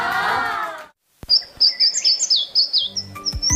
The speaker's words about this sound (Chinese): 这个应该是柳莺的声音。